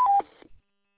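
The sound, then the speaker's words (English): A short electronic roger beep marks the end of a radio transmission on a repeater network: two brief tones, the second slightly lower, followed by a faint burst of noise before silence. “try to get that Roger turned off. It's not allowed on the repeater network.”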